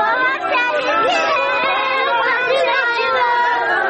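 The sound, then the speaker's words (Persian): A crowd of grieving relatives, mostly women and children, cries out in mourning, their loud overlapping voices forming a dense, continuous wall of wailing and shouting. “اینها فریادهای کسانی است که سه روز قبل عزیزانشان را در حالی از دست دادند که مصروف پیدا کردن لقمه نان برای فامیل هایشان بودند.”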